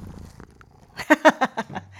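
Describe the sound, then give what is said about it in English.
A cat purrs close by in a home office: after near silence, about five rhythmic, buzzy pulses come in a short burst, then a faint low hum. “if you guys hear this, my kitty is purring right next to me.”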